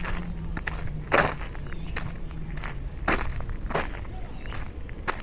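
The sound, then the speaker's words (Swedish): Footsteps of someone walking down outdoors, a few soft, irregular steps spaced apart over steady background noise. “Ja, men jag börjar gå då. Går jag ner till familjen.”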